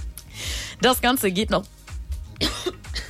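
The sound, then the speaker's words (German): A few rough coughs from a radio presenter in a studio who has just choked, short noisy bursts mixed in with steady talking. “Entschuldigung, ich habe mich gerade total verschluckt.”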